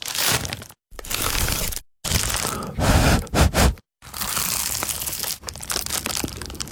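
Bites into a crunchy award-winning pie: several loud bursts of crisp crunching and crackling pastry, broken by brief silences, with a few rapid sharp crunches in the middle.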